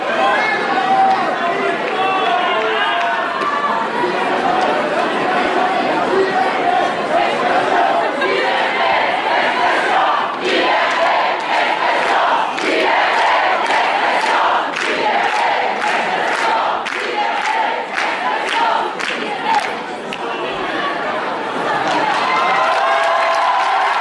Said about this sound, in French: Le public, d'abord interloqué, commence à réagir.